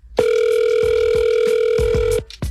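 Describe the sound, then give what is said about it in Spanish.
Telephone ringing on an outgoing call to a contest winner: a steady electronic ring tone with a bright high buzzing pitch holds for about two seconds, loud and continuous, then cuts off before a faint sound at the end. “vamos a hablarle a la persona ganadora a ver si nos contesta.”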